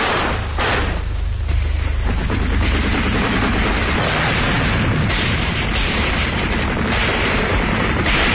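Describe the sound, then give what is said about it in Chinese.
Gunfire and blasts of a battle as security troops shoot at a counter-revolutionary hideout: a dense, continuous roar of shots and explosions, loud throughout and with no voices. “战斗打响了，契卡的同志们在向这个反革命黑窝射击。”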